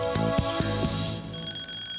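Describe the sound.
A timer alarm rings during a quiz game, giving a bright, bell-like electronic tone in a few rapid pulses that settle into steady high ringing.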